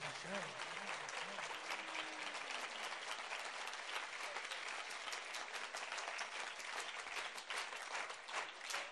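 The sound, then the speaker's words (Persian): Applause from an audience dedicated to Hazrat Zahra at a religious gathering: dense, steady clapping that fills the whole stretch at an even loudness, with faint voices mixed in near the start. “دست تو بیار بالا، هر جا هستی نثار حضرت زهرا، یه کف قشنگ.”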